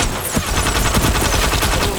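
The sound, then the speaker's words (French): A repeating crossbow fires many small bolts in rapid succession, a loud, dense burst of sharp clattering shots running without pause. “C'est un nouveau modèle d'arbalète. Je l'ai conçu la nuit dernière. Et ça fait quoi ? Ça tire plein de petits carreaux à la chaîne, et ça transperce les cuirasses.”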